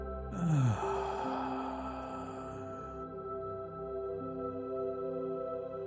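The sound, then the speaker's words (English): A long, deep breath out through the mouth during a guided sleep meditation, a soft airy rush lasting a couple of seconds that fades over quiet sustained musical tones. “And breathe out through your mouth until all the air is out of your body.”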